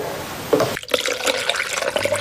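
Hot water poured into a stirred batter of finely ground rice and water, a continuous splashy liquid rush holding steady across the whole moment.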